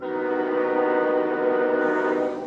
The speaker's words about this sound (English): As you approach Brian Dewan's house in Catskill, you're likely to hear all sorts of sounds. From the freight train chugging by,